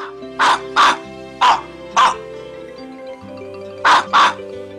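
Dogs barking: six sharp bark bursts, in loose pairs with short gaps, over a steady low tonal hum.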